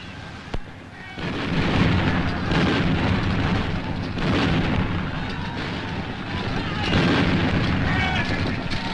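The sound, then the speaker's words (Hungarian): Cannon artillery fire on a battlefield: a sharp crack near the start, then a heavy, sustained booming rumble of gunfire that swells and rolls on throughout. “A jobb szárny ágyusai a lovasságot lőjék.”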